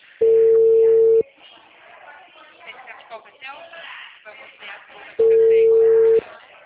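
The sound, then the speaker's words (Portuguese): Two telephone ringing tones sound while a call to a client is placed. Each steady, low burst lasts about a second, and the bursts are several seconds apart, with people talking between them. “Não, eu tô ligando pro cliente da AM, como central.”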